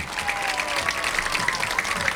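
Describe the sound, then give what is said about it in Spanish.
A stadium crowd applauds as the Unión football team leaves the pitch, with sustained clapping carrying a faint regular pulse throughout and staying even in volume. “Muy bien, ahí se va, aplaudido por su gente. Comienza a retirarse el equipo de Unión.”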